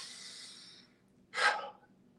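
A big deep breath in, demonstrated during a back and core strength session for football linemen: a long, airy inhale, then a short, sharper rush of breath, both faint.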